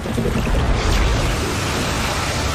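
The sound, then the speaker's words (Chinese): Old Faithful, a cold water geyser, erupting with a loud, steady rushing roar of spraying water that holds without pause. “那是冷水间歇泉，我们叫它老信赖。你知道它每隔一小时就会喷水，已经有10000年的历史了吗？”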